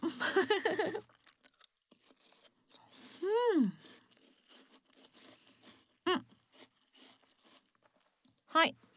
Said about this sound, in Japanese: それじゃ、いただきます。おいしい。